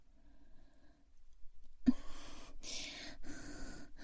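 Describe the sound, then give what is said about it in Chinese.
A child breathes in and out against a mother's armpit, giving a few soft, noisy breaths after a brief dull thump, with faint background sound before. “还在不断的吸气吐气的，喷出来的气体，弄得妈妈真的好痒啊！”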